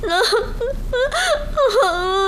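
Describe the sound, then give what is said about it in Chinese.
A person cries and whimpers in high, wavering wails, with several drawn-out sobbing moans rising and falling in pitch, loud and steady throughout. “我求求你别哭行不行啊，咱有话好好说好不好，求求你别哭，不哭了不哭了啊”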